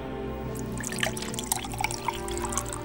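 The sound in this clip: Hot water being poured for drinking, a soft trickle of liquid with a few small drips and splashes, fairly faint over a steady low hum.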